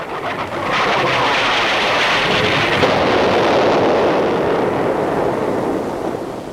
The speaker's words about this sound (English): We're being shelled! We're under attack!